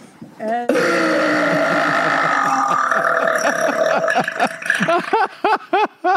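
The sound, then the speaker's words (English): A girl lets out one long, loud, drawn-out burp lasting several seconds, rough and rumbling throughout, followed by a few short choppy vocal bursts. “And she would drink Dr. Pepper and burp like that.”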